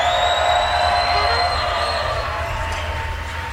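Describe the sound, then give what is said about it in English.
A crowd cheering at the WWOZ Jazz Tent, a dense, steady roar of voices that slowly fades. “They need more energy than that. Come on, let's hear it for them.”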